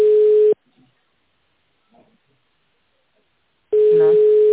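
Telephone line tone while placing a call: two long, steady beeps of a single mid-pitched tone, one at the start and one at the end, with near silence between them.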